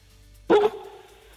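A single short dog bark rings out loud and alone over a quiet background, with a brief fading tail after it.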